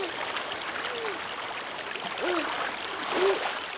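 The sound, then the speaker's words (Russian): A fast river rushing through a gorge, a steady, dense hiss of flowing water that swells slightly toward the end. “Быстрая река несет Олегшу по расщелине.”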